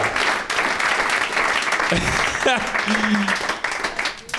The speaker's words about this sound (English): Let's hear it for Julian McCullough, everybody.